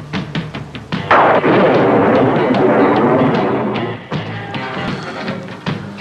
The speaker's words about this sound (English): Too many bombs.